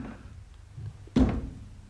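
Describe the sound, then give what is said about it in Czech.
Knocking on a door in a radio drama, heard as a single dull, heavy thump that stands out against a quiet, low hum. “Ale proč klepe na dveře? Proč si neotevře?”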